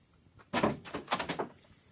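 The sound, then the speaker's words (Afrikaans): A storeroom door is opened: a quiet moment, then a burst of knocking and scraping clatter lasting about a second, then quiet again. “Die volgende oggend skrik hy wakker toe iemand die stoorkamer se deur oopmaak.”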